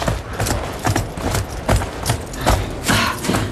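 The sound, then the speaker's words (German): Horses being led into a stable on a cold winter day, their hooves clopping in a few irregular, loud thuds over a constant rough background. “Bringen wir die Pferde in den Stall.”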